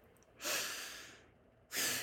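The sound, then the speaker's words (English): A person takes audible breaths: a long, soft, airy breath swells and slowly fades, a short quiet gap follows, and a second breath begins near the end. “I'm going to ask you to take a breath.”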